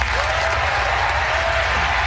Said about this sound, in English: applause right here.